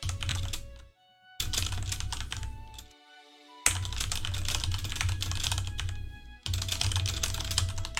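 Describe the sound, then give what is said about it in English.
Typing on a computer keyboard produces dense bursts of rapid, crisp clicks that stop briefly twice before resuming, at a moderate level with no voices. “Nope, I was typing.”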